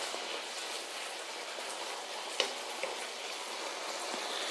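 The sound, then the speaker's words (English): Fried rice vegetables sputtering back up to a boil in a pan, a steady crackling sizzle like light rain with a couple of sharper pops standing out midway. “The vegetables aren't, you know, sticking to the bottom of the pan. But let it come back to a boil. Let it come back to a nice sputtering boil.”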